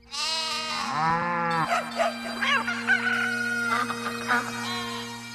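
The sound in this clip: Goat, bull, dog, cat, rooster and goose call together in a loud, overlapping farmyard chorus. A long harmonic crow rises near the start, and a continuous tangle of bleats, cries and yelps runs through the rest.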